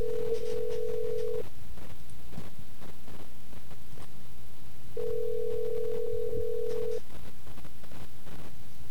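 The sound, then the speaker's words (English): Ringing tone of an outgoing call placed from a cell phone: two long, steady, even-pitched tones separated by a pause of several seconds, over low background noise. “now we'll call the number again. And we'll conference it in.”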